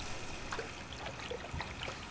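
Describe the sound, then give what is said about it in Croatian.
Water trickling and splashing in a bathtub of warm, foamy water as shampoo is rinsed off, a steady quiet wash of noise with a few faint splashes and gurgles scattered through it, no voices. “Nagni se naprijed da ti operem leđa. Zatvori oči. Sad ću isprat šampon.”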